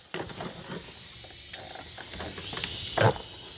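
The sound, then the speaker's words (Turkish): Argon TIG welding on a broken, water-corroded bolt: a soft, steady hiss with faint crackling and mechanical ticks, then a brief louder burst near the end. “Argon kaynağı yapıyorum. Isıyı daha lokalize bir şekilde uyguluyor. Gazaltı kaynağından çok daha hassas. Gazaltı kaynağı bu işlem için uygun değil. Uygulamayı cıvata üzerine yapmam gerekiyor.”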